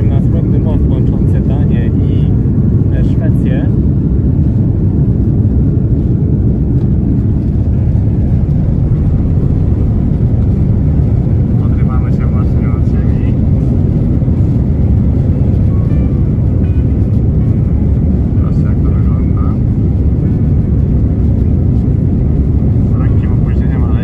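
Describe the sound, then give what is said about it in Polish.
An Airbus A330 airliner leaving Copenhagen accelerates down the runway for takeoff, heard as a loud, steady, heavy cabin roar with deep low rumble throughout, while a voice talks over it. “A już się rozpędzamy i zaczynamy lot do Chicago.”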